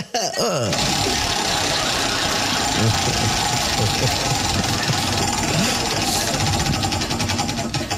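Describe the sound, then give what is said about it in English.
A prize wheel being spun, giving a dense, loud run of rapid mechanical clicking and rattling that carries steadily for several seconds, with some voices mixed in. “get up here and spin that wheel”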